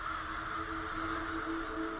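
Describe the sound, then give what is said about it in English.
Crows caw as several fly above a grassy field, their harsh calls faint and blending into a steady, continuous layer of cawing. “Several crows fly above the field.”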